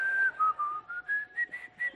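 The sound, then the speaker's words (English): A whistled patriotic hymn tune plays in the background: a faint, clear melody of several sustained notes, each held briefly and separated by short gaps, with the pitch stepping gently up and down. “You can hear the battle hymn of the Republic in the background, can't you?”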